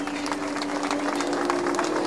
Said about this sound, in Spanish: Ahí está en este momento. Esos aplausos, bueno, pues.